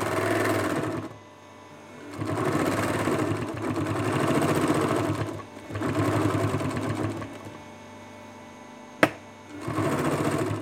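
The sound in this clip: Sewing machine stitching a seam: several runs of fast, steady mechanical whirring separated by brief pauses, with a single sharp click shortly before the last run.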